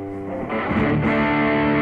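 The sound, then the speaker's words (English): Overdriven electric guitar with a crunchy front tone pushed further by stacked distortion. It produces a gritty, sustained chord that thickens and grows louder midway, then rings on with dense, fuzzy harmonics. “and then you can overdrive, distort it more from behind. So you're not, you are basically just lifting the distortion sound.”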